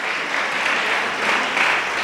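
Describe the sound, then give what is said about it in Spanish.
Audience applause at a spoken talk, a dense and steady wash of clapping that holds at an even, moderate level throughout, with no voices rising above it. “denle un aplauso a los que quieren ser libres”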